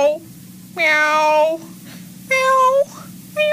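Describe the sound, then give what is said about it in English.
A person imitates a cat's meow, giving a few drawn-out, high, whining meows with short pauses between them. A faint low hum runs underneath. “Meow. Meow. Meow. Meow. Meow. Meow. Meow. Perfect.”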